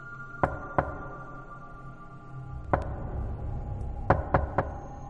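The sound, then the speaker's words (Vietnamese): Knocking on a door: six sharp raps in uneven groups, first two, then a single knock after a pause, then three quick knocks close together. “Thế nhưng tiếng gõ cửa ấy lại tiếp tục vang lên.”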